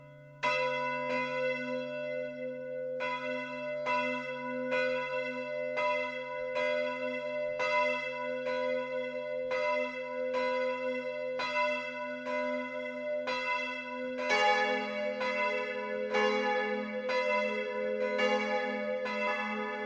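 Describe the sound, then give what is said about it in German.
Noon bells ring from the Catholic parish church Mariä Himmelfahrt in Lohkirchen, Upper Bavaria, with evenly spaced resonant strokes. A second, fuller bell joins about two-thirds of the way through and thickens the steady peal. “Das Mittagsläuten kommt heute von der katholischen Pfarrkirche Mariä Himmelfahrt im oberbayerischen Lohkirchen.”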